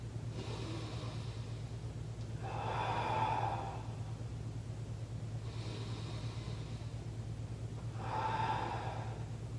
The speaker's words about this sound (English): every deep breath in, you want to push into the ground. So it's going to look like this.